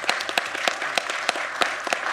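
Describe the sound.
An audience applauds to welcome a speaker at a talk: many hands clapping steadily at a moderate level, a dense, even patter with no voices over it.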